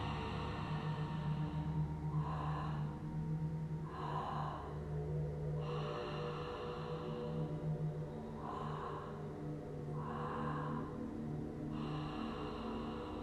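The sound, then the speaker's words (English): A breathing exercise done entirely through the mouth, with a series of soft, airy, even breaths spaced by short pauses. The breaths are quiet and sit over a faint low hum. “And then you continue to breathe to the upper lungs, which is like another tire around your heart. So it sounds like this, it's all through the mouth.”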